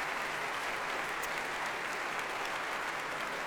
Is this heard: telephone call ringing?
no